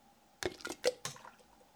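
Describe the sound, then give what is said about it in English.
Soft wet squelches as tomatoes are pressed into canning jars, packed tightly with little juice; about four short squishy plops in quick succession, fairly faint and alone. “I'm going to start filling. So what I usually do is try to pack it mostly with tomatoes and not get a lot of the juice in there so that each jar is fully packed with tomatoes.”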